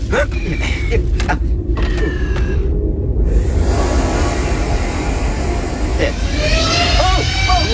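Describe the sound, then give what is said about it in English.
A Star Wars landspeeder, a ground effect vehicle, starts off with a loud, steady droning rumble. Thin whining tones glide across it and hold throughout. “Piloting ground effect vehicles like your land speeder is one of my secondary functions. Good idea. Let's go.”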